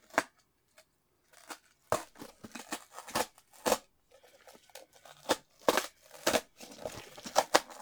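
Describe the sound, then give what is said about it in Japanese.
Peeling open the perforated side tab of a product package: many soft, irregular crinkling and tearing crackles with small snaps, fairly faint, coming in short bursts separated by brief pauses. “早速開封していこうと思います。じゃあこの横のオープンをペリペリっと。”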